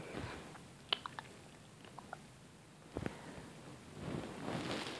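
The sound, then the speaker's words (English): Faint wet licking and smacking mouth noises as someone licks food off, a few scattered small clicks early on, a louder cluster near the middle, then a soft, continuous slurping texture toward the end. “I'm gonna see if I can just lick it off.”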